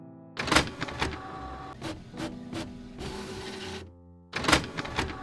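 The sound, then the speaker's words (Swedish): A printer prints out pages with loud mechanical whirring and rattling bursts, a steadier feed in the middle, then a brief pause before another burst. “Jag skriver ut faktan till er här.”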